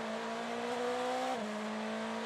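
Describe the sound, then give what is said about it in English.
A BMW sports race car runs at speed during IMSA WeatherTech Sports Car Championship practice at the Roar, its engine a steady, loud, high-pitched whine whose pitch dips briefly partway through. “Well, it looks like Philip Eng is up to speed in that BMW.”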